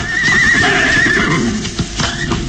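Horses whinnying while pulling a carriage: a long, loud, quavering whinny, then a shorter one, over continuous rumbling and hoof clatter.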